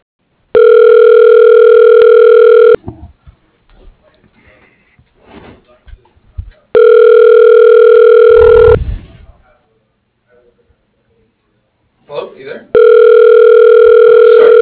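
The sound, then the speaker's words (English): Telephone tones on a call to a voicemail extension: three long, steady, buzzing tones of about two seconds each, separated by gaps that hold faint, muffled clicks and bumps. “To leave a voicemail message for Danny Looney, dial 101.”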